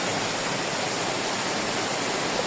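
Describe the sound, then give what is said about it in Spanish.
Floodwater rushing through Hospitalet, Barcelona, during torrential rain: a dense, steady hiss of flowing water, even in loudness throughout, with no voices. “Este sonido de las inundaciones en Hospitalet es una de las zonas de Barcelona más afectadas por este temporal.”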